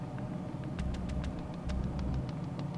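A car engine rumbles steadily at a low pitch. Scattered faint crackling clicks, like a radio coming to life, sit above it.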